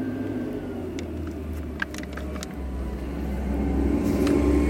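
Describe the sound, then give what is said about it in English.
A garbage truck driving past, a steady low engine rumble that grows slightly louder toward the end, with faint scattered clicks above it. “Fuck you, you fucking garbage truck. Fuck you, fucking garbage truck.”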